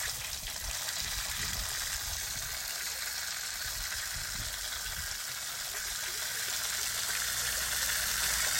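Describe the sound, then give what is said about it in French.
A water dragon in the sewers spitting a jet of water: a constant, loud rushing hiss that holds steady from start to finish. “C'est un dragon d'eau, c'est pour ça qu'il crache de l'eau.”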